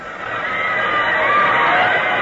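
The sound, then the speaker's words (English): A crowd cheers the Yale team as it runs onto the field at a college football match, a broad, continuous roar that swells slightly and holds steady to the end. “Dear me, what's happened? They're cheering the Yale team.”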